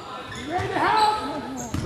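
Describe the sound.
A basketball is dribbled on the court during a game, its bounces heard under voices and crowd noise.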